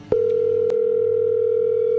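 Telephone line tone after a number is redialed: a single steady, unbroken pitch that starts abruptly and holds for about two seconds, with a faint click near the start.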